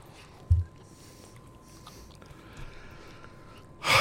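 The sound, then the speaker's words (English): A person gives one short, sharp snort through the nose near the start, followed by quiet with faint rustling and a louder burst of noise at the very end. “Nice snort there.”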